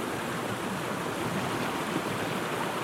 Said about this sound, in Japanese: でもそれまでの雨がたっぷり溜まっているので、川の水量は結構あります。